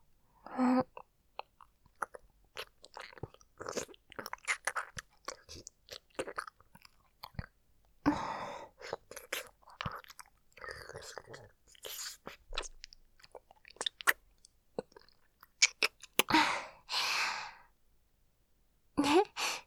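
Shaved ice chewed and crunched close up: many soft, crisp crunches in irregular bursts, separated by quiet pauses and breathy sighs.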